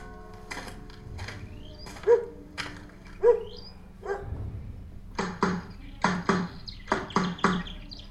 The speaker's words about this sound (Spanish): Faltó el perro, decimos. Faltó el perro.